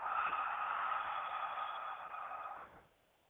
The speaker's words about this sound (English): it's so humbling to take a deep breath, man.